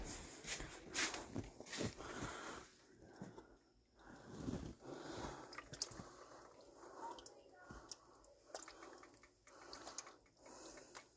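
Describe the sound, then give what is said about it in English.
Soup being stirred in a zebra-print pot: irregular clinks, knocks and scrapes of a utensil against the pot, with soft wet sloshing between them, fairly faint and uneven in rhythm. “It's fucking zebra print, and it makes me so happy. And that's what I'm cooking my soup in now. I need to stir my soup.”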